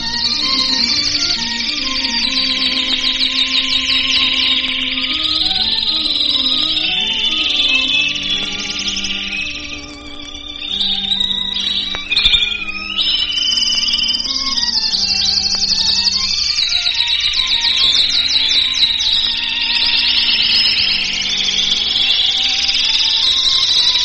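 Trained canaries sing continuous high, rapid warbling trills over steady instrumental music as part of an opening musical number, their song staying dense and bright throughout with only a brief dip midway.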